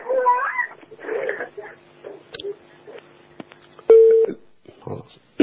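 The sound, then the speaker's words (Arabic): A telephone line tone follows a caller's dropped call. A faint steady hum runs under brief speech at the start, then a single loud, flat beep sounds midway, and voices return at the end. “قطع اتصال يعني.”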